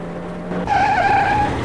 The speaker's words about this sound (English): The cars are now racing along a busy highway, swerving in and out of traffic.